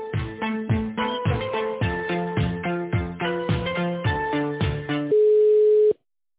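Telephone tones while a call is being transferred: many quick, pitched electronic beeps in a repeating melodic pattern, then one steady sustained tone that cuts off abruptly.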